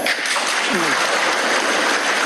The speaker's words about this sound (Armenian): Ղազախստանի նախագահի այս մի հայտարարությանը պատգամավորներն արձագանքեցին միահամուռ ծափահարություններով։